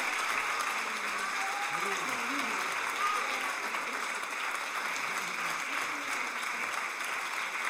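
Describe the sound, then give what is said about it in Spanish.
Audience applause after a performance: steady, sustained clapping that runs unbroken throughout, fairly faint, with a few voices mixed in. “fuerte aplauso para ella, maravilloso”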